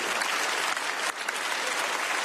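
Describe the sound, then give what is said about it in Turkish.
Standing ovation for von der Leyen and Canadian Prime Minister Carney: thick, continuous applause from many hands, loud and steady throughout the short stretch. “Bu sözlerin ardından von der Leyen ve Kanada Başbakanı Carney ayakta alkışlandı.”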